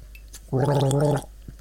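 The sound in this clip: Gargling with a mouthful of tea makes one loud, bubbling, throaty rattle that lasts well under a second, set against quiet on either side.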